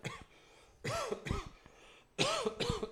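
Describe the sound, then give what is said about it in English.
Quiet coughing in two short bursts, each a cluster of rough, throaty coughs, separated by a brief hush. “I started coughing, and the cough wouldn't go away.”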